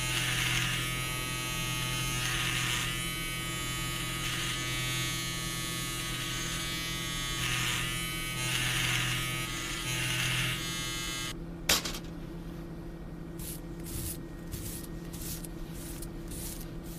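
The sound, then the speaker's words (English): Electric razor buzzing steadily as it shaves the hair around a dead man's head before an autopsy, a continuous hum with gentle swells that stops, followed by a sharp click and a few short pulsing buzzes. “I'm shaving the hair around his head in order to make a clean incision as we remove the skull cap.”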